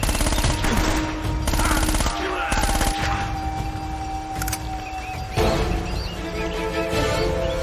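Gunfire comes in rapid bursts, many shots packed into dense volleys that continue throughout over a steady background hum.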